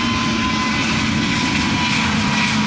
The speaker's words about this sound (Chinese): 这是 C919 首架机在首飞前进行的一次滑行试验，这也是 C919 第一次依靠自己的动力行走。